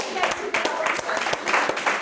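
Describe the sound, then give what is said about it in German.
Audience applause for Flippi, a dolphin mascot: brisk, dense clapping fills the short stretch, with voices heard over it. “Ein Applaus für Flippi.”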